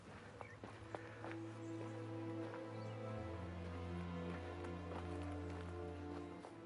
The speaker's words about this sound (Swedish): Tidigt nästa morgon sadlade Abraham sin åsna och tog med sig två av sina tjänare och sin son Isak.